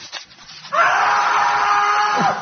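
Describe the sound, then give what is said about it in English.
Estate agents screaming as they are tormented: a loud, sustained scream that erupts after faint murmuring, holds steady, then drops sharply in pitch at the end. “Sorry about the noise, Thomas. The lads are tormenting some estate agents.”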